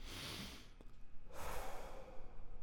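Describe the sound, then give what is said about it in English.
Slow breathing during a guided relaxation exercise: a soft, airy hiss of breath drawn in, a short pause, then a longer, fuller breath let out, with no talk. “Go ahead and breathe in through your nose and out through your mouth.”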